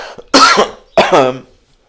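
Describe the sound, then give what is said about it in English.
Coughing from a person with a chronic cold: two loud, harsh coughs in quick succession, then a fading tail. “I do apologise for the coughing and there's nothing I can really do about it.”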